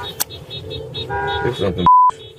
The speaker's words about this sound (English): Another vehicle is behind the agents, also honking the horn.